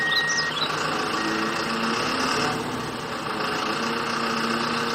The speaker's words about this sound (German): damit der Abschleppdienst hier in Ruhe arbeiten kann. Wir schauen uns das alles gemeinsam aus sicherer Entfernung an.